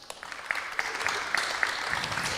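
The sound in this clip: Audience applause for a conference speaker, a fairly faint, dense patter of clapping with scattered sharper claps, continuing evenly without talk.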